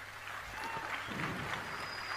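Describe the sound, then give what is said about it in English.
An audience applauds at the end of a speech at an institution, a steady wash of clapping with crowd noise that holds at an even, fairly soft level. “So it's just a pause for applause at the end there. And the applause goes on for a bit because she said, well, the law is racist.”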